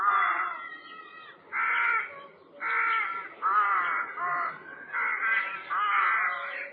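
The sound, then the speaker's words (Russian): A crow caws harshly again and again, about seven rasping calls in an uneven rhythm. The calls are clear and moderately loud, with no other sounds. “Вот и ворона тоже.”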